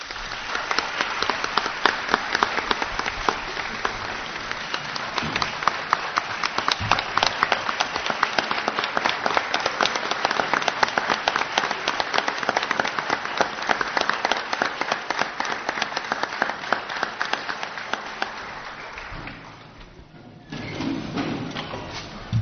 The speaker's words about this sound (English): Just so everyone knows, sure. we're clapping for Colum, not for the extended executive session.